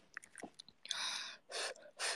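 Someone eats salt ramen: a few small mouth clicks, then three bursts of breathy, hissing noodle slurps. The sounds are quiet and heard alone.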